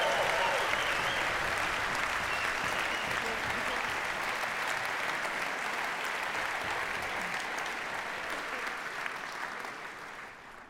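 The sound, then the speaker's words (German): Audience applause for the orchestra stagehands at a carnival concert in Bonn: dense, sustained clapping that holds steady and tapers off at the very end. “Applaus für unsere Orchesterwarte!”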